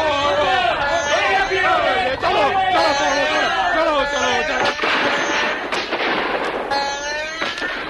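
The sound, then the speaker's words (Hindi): Heavy gunfire as soldiers fight tribal warriors armed with bows in a battle: many sharp shots crack amid loud overlapping shouts and crowd cries that continue throughout. “सिपाहियों ने गोलियों की भयानक बरसात कर दी।”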